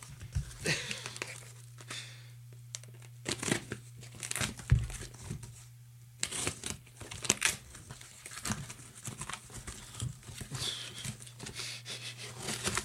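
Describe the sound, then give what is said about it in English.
Cardboard and tape are cut through on a small, taped-together cardboard box, making quiet, irregular bursts of crinkling and tearing over a steady low hum. “Sometimes you just gotta cut through the cardboard.”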